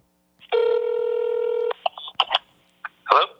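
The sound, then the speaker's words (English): Telephone tones as a call is placed again: one long, steady, mid-pitched tone lasting about a second, then a few short, quieter beeps and blips. “I just texted you a few seconds ago, so I'm going to try and call you again here.”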